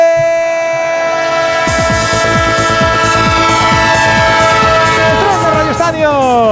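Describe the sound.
A train sets off as a sound effect: steady, sustained horn-like tones sound first, then a regular clickety-clack of wheels on rail joints starts and keeps going under them.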